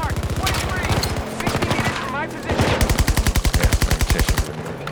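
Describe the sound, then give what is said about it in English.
Rapid automatic gunfire in a military shooter video game: a long stretch of fast bursts, first continuous, then broken and intermittent, then another sustained rattling burst before it trails off. Loud and sharp throughout. “Oh, I'm already taking fire.”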